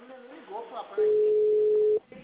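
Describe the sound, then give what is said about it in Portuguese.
A phone system signal tone before dialing an extension: a single steady, low-pitched tone lasting about a second, preceded by a recorded voice. “Atendimento digital. Após o sinal, digite o ramal.”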